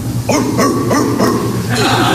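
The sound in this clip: A small dog barks in a children's song, with several short, yapping barks in quick succession over a steady background.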